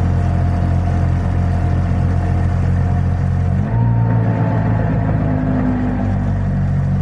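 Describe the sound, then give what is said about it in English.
A Trabant's two-stroke engine running with the choke eased out makes a heavy, steady low buzzing drone. Its pitch shifts abruptly partway through as the revs change, then it holds a constant rumble. “One thing you find is that no two Trabants will ever sound the same. Like mine is very, very, very heavy with the typical two-stroke ning ning ning ning ning noise.”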